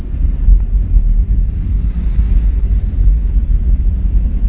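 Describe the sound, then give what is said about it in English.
Large freight train rumbling past, a loud, unbroken low-pitched rumble with steady noise and no distinct individual events. “So again, take a moment to be aware of things going on around you in the room, noises, large freight trains.”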